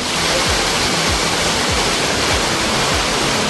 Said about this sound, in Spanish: Esta es la salida de una impresionante obra de ingeniería, que es el túnel Grato. Aquí el agua se recolecta por drenaje de un complejo sistema de fracturas geológicas